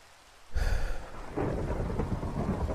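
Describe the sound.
Rain and thunder: a thunderclap bursts in after a quiet moment and rolls into a deep rumble, while heavy rain patters steadily throughout.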